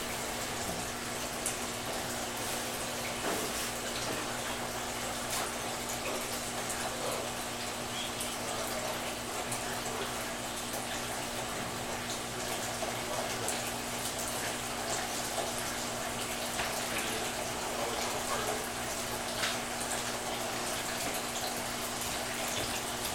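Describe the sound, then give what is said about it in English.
Liquid is pumped from a drum into a 300-gallon wine fermenter at a winery making ocotillo wine: a steady, continuous rushing and splashing with a low, constant pump hum underneath. “So once we get the sixth drum pumped in, we have 300 gallons in the fermenter”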